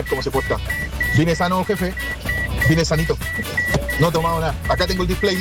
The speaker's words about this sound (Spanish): Está sonando ahí en su vehículo. No sé si será la el cinturón o no.